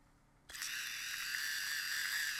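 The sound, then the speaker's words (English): A battery-powered electric salt and pepper grinder switches on with a click, then a steady, high buzzing whir runs to the end, fairly faint. “Somebody got him electric salt shaker. Salt and pepper grinders. Yeah, so he pushes the button.”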